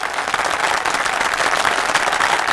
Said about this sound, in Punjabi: ਲੋ ਸੱਜਣਾ ਮਾਰੋ ਜ਼ੋਰਦਾਰ ਤਾੜੀਆਂ।